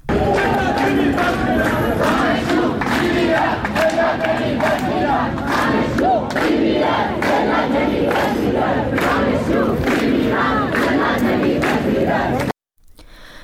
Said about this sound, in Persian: دانشگاه تهران رو میشنویم صدای شعار دانشجوها که میگن دانشجو میمیرد ذلت نمیپذیرد.